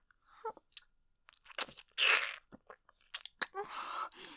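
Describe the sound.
Chewing and biting sounds come from someone eating a banana, with irregular wet, crunchy bursts separated by short quiet gaps and no talk.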